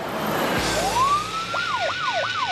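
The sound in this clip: Siren from police patrol cars in a convoy chasing a hijacked armored cash van at night in a city. A long rising wail gives way to a few quick up-and-down sweeps, loud over a steady rumble.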